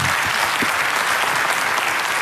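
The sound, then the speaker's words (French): Audience applause for a guest at a televised tribute segment, dense and steady clapping that stays loud and even for the whole stretch without a break. “Christophe, applaudissements pour Christophe.”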